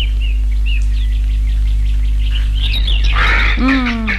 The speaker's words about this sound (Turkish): Bu kargalar da. Bir onlar var işte.